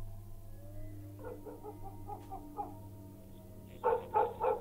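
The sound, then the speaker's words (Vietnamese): Two H'mong bobtail dogs bark excitedly at their owner by a stilt house: a run of fainter, quick yaps, then three loud, sharp barks close together over a low, steady hum. “Vừa nhìn thấy chủ, hai con chó mông cọc đã sủa lên nhấm nha nhấm nhẳng, có vẻ như là vui sướng lắm.”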